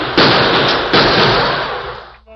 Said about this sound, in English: Hold that gunfire in there!